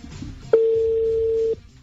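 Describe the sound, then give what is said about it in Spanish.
A single steady telephone tone sounds once for about a second as a number is dialed on a phone keypad, with faint low background sound before and after. “¿Listo? estamos marcando.”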